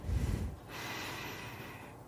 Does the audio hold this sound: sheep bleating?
no

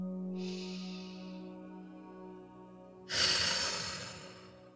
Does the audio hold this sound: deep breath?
yes

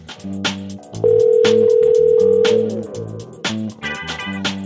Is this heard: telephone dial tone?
yes

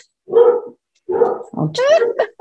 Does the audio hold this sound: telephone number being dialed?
no

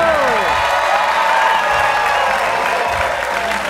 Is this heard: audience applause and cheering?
yes

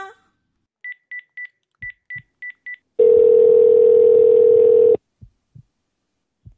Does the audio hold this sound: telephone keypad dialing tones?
yes

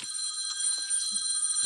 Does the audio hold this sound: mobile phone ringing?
yes

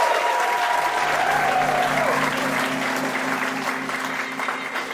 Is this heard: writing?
no

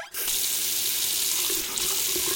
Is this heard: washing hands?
yes

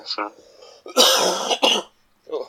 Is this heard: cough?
yes

